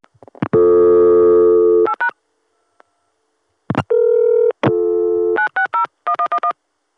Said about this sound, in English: let's dial 960 on my local access number and see how it goes through.